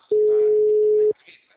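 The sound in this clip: A telephone line tone heard while a call is being placed: one steady, mid-pitched beep lasting about a second, then near silence with only faint traces of sound.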